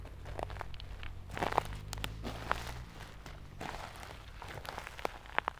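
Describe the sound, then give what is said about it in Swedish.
Crunching, rustling footsteps of a dog and its owner running through a pine forest over moss, in a quick irregular patter of soft steps over a steady low hum, with no voices. “nu rusar Sigge genom tallskogen. Med husse springande efter och han verkar nosa upp den plats som Micke gick på tidigare.”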